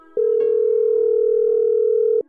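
Telephone ringback tone as a call is placed: a single steady, unbroken mid-pitched tone, moderately loud, lasting about two seconds alone before cutting off.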